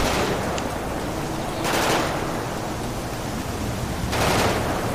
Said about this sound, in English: Watch out. Shots, shots, shots, shots.